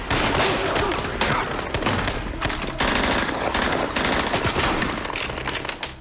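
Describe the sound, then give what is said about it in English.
Machine-gun fire from massive, loud guns at close range in a film scene where a room is cleared: dense, rapid, continuous bursts that fill the whole span without a break. “everything is such close range. It's such a powerful effect. With those massive, loud guns.”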